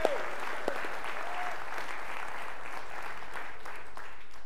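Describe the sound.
A church audience applauding the worship team, a steady wash of clapping that holds at an even level throughout, with a faint voice briefly audible near the start.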